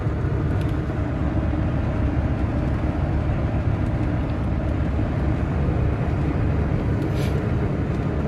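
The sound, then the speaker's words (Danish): A motorhome drives along the road, with a loud, unbroken drone of engine and road noise that stays even throughout. “Jeg kører på vejen jeg er her igen.”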